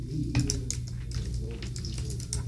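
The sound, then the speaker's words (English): Fingers tap on a computer keyboard in an irregular run of quick, faint clicks, with a low steady hum underneath. “Here, are you at the slash? Yeah, go ahead. Type it.”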